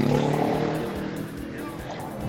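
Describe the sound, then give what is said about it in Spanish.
Engine roar of motorcycles passing on a city road during a traffic report, a loud, steady rushing drone that holds through the whole moment. “Perdón por el ruido de los motos.”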